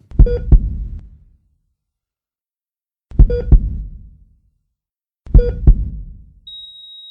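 A heartbeat sound effect plays three slow, deep double thumps spaced a few seconds apart. A steady, high-pitched electronic beep follows at the end. No one speaks.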